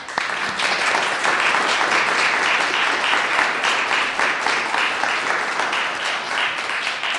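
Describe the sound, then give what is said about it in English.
An audience in Sag Harbor applauds warmly to welcome a speaker: loud, dense clapping from many hands, sustained and fairly even throughout, with no talk on top. “Please give a very warm Sag Harbor welcome now to Don Coors.”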